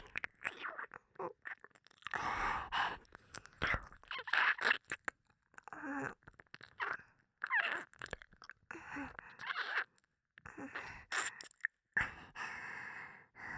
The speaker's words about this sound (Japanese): 私、初めて耳舐めしてるんですけど、うまいですか？